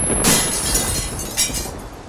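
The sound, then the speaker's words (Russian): A stone in the base of a machine cracks and bursts. A sharp shattering burst comes early, then a second, shorter crack, both over a steady noisy hiss. “Лаборант прикрыл глаза от нестерпимо яркого света и услышал, как лопнул и погас камень в основании машины.”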